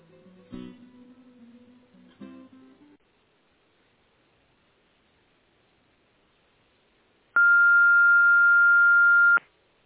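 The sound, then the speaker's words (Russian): Telephone line tones while a call is being transferred: a few faint muffled noises at first, then a stretch of near silence, then one loud, steady, even beep lasting about two seconds. “Сейчас, подождите, я вас переведу.”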